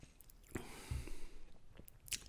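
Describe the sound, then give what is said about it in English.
Soft, wet mouth sounds of someone sipping and tasting a Christmas beer, the last of a twelve-beer series: a few faint smacks and squishy clicks over a quiet background hiss, with no talking. “So let's take one final taste of the final beer of the 12 beers of Christmas, and I'll give you my thoughts before we finish.”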